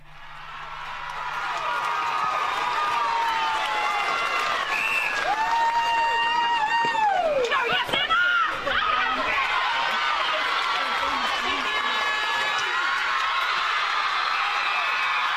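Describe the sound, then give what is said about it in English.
Netball players cheer, shout and clap as they celebrate winning an A-grade grand final. The excited voices and high squeals form a sustained, loud, jubilant din. “That is the sound of the Navarre players celebrating their win, a historic, emotional, bittersweet flag for the Grasshoppers.”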